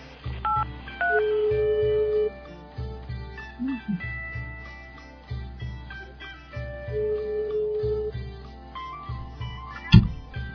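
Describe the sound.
Telephone keypad tones sound as a number is dialed: a series of electronic beeps of differing pitch, some short and a couple held longer, over a busy background.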